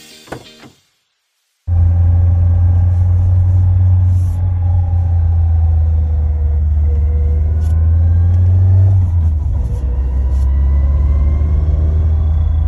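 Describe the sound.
A car gearbox whines while shifting down off the throttle. A loud, steady low engine drone runs throughout, with faint rising whine tones above it, and the drone changes character near the end.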